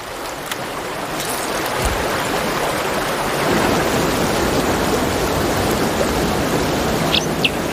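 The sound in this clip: A waterfall, with a dipper's nest hidden behind the falling water, gives a steady, loud, rushing roar. The broad hiss stays constant and unbroken throughout, with no voices.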